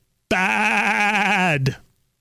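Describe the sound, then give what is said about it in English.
A goat lets out one loud bleat with a steady, quavering tone that lasts over a second, then cuts off into silence. “They all got there and were like, oh, it's just a goat. I got it. Okay, the goat.”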